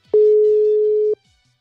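A WhatsApp call ringing tone sounds as a single loud, steady electronic beep lasting about a second, with nothing else around it before it falls silent.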